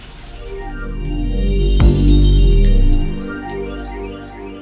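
A yarn twisting machine hums as it plies two spun threads into one two-ply yarn, a steady mechanical drone with tonal whine that swells louder through the middle and then eases back.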